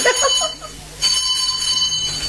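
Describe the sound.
A bell rings, bright and metallic, starting about midway and sustaining steadily to the end, after a brief faint voice at the very start.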